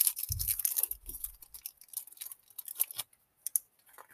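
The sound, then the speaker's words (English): Someone eats a Reese's peanut butter egg, with irregular crisp crackling and crunching bites and a few soft low thumps early on, all fairly faint. “I'm gonna eat a Reese's egg.”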